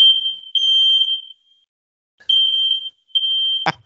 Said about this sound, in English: fire alarm. That's awesome.